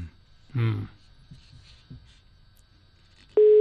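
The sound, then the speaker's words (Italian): A telephone ringing tone sounds near the end as a loud, steady, mid-pitched tone. It follows a short vocal sound near the start and faint background noise. “Secondo squillo, terzo squillo,”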